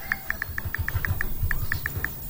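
Typing on a mobile phone's touch keyboard: twelve short, sharp, high ticks in a quick, fairly steady rhythm over a faint low background rumble.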